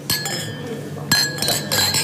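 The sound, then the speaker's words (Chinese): Drinking glasses clink together in a toast, a few bright, ringing chinks with a lingering glassy tone between them and faint voices in the background. “咱们干杯。 干杯。”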